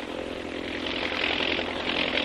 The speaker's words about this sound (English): An army plane in advance of the mechanized column sights something and reports by radio to the column below.